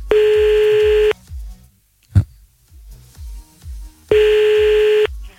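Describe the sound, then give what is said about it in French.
Phone line ringing during a call placed again after being cut off: two long, steady mid-pitched ringback tones about three seconds apart, with a sharp click between them over faint background music. “On va rappeler encore un coup, quand même. Gentil. On rappelle. Attends, bouge pas, on rappelle.”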